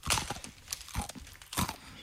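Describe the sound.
Crunchy chewing of a food that tastes of oatmeal with sugar: a few sharp, dry crunches stand out from softer mouth noises, fairly quiet overall.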